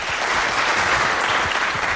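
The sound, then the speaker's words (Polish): Applause from an audience thanking donors at a charity auction that raised money for two foundations. A thick, continuous wash of clapping holds at an even, fairly loud level from start to finish. “I to dla Państwa ogromne podziękowanie i poproszę tutaj o oklaski.”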